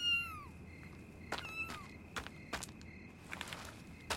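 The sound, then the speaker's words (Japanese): A cat meows twice from under a house, each cry high and falling in pitch. A few soft footsteps or taps follow, and everything stays fairly quiet. “この家の縁の下にいる？確かに今猫の鳴き声が聞こえたけど”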